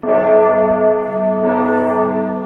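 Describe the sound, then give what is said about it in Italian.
A single bell-like time-signal chime marking the exact hour: one clear, sustained ringing tone that holds steady and fades only slightly toward the end. “Quando sentirete il rintocco, saranno esattamente le 10:26, ora media della costa orientale.”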